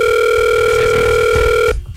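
A phone call rings while waiting for someone to answer. A steady, continuous electronic ringback tone holds loud and even, then cuts off abruptly near the end.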